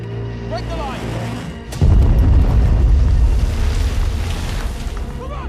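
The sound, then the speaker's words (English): A nearby bomb explosion in a wartime drama, set among soldiers packed on a mole waiting to board a ship: voices are heard first, then a deep boom bursts in and keeps rumbling loudly to the end. “everyone cowers at the sound of a nearby explosion.”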